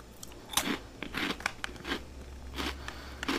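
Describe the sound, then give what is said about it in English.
Crunchy cinnamon churros are bitten and chewed, giving several crisp, crackling crunches spaced at irregular intervals and heard alone without talk. “Crunchy bite. I'm going to try it. Oh, yeah. I mean, you can't go wrong with churros, can you?”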